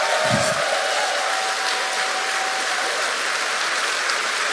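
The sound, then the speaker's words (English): Applause from an event audience for the volunteer crew, a broad, hiss-like wash of many hands clapping that stays even throughout, with a soft low thump near the start. “Can I just get a massive round of applause for those folks?”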